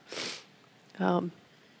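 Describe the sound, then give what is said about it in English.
A person gives one sharp, breathy nasal sniff. It is followed by a short voiced sound, and both are fairly faint. “So sorry for all the sniffles”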